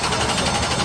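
Race car engine revving at full throttle on a racing track, a brief, loud, steady buzzing roar with a slight waver and no voices.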